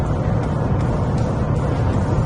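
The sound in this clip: A car engine running in sport mode gives a constant, loud, low rumble with dense road-like noise and no breaks.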